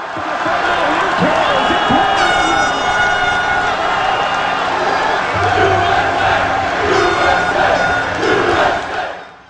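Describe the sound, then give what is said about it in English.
Soccer fans roaring and cheering at the official watch party in San Pedro Square, San Jose, during a U.S. match, a loud, sustained wall of shouts and whoops that continues throughout. “soccer fans are watching from all over the Bay Area. Here's how it sounded at the official watch party in San Jose, San Pedro Square.”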